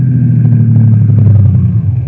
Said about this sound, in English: Here come car now